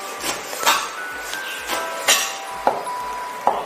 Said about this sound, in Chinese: 要把板筋肉和猪血切一下，